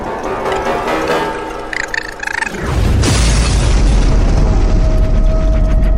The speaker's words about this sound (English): So, the Cyclops brings this massive mallet down upon this poor raccoon.